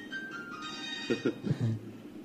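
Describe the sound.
A mobile phone ringtone goes off during a radio interview, sounding as sustained electronic melodic tones.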